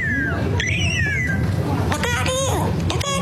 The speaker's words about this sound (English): You hear that? It sounds like a bird saying, look out here, look out here.